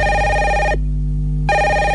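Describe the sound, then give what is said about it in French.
A telephone ringing with a steady electronic tone rich in harmonics, loud and alone: one ring burst, a short silence, then the next ring begins. “Ah, en plus, il y a votre téléphone qui sonne.”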